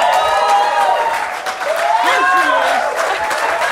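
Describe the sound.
An audience applauds and cheers to welcome a guest. Steady clapping carries throughout, with whooping voices layered over it and a brief dip before it swells again.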